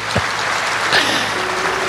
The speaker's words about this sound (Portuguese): Glória a Deus, vamos aplaudir ele porque ele veio junto.